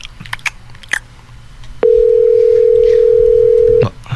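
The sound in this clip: A telephone call goes unanswered as a single long, steady mid-pitched ringing tone sounds for about two seconds, preceded by a few soft clicks and rustles.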